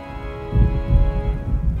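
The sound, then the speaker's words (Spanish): Low rolling thunder with a noisy wash of rain and wind beating on the walls of an old house. The storm swells after a quieter start and continues steadily over a sustained tonal drone. “Los truenos retumbaban aún con más fuerza y la lluvia y el viento azotaban sin piedad las paredes de la vieja casa.”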